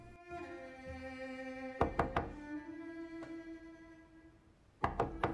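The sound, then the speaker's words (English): Knocking on a door to a room off an upper gallery: three quick knocks, then a single one, then three more. The knocks are sharp and loud over a sustained, soft musical drone. “Dr. Cogan makes her way across the upper gallery and pauses outside Reggie's room, knocking at the door.”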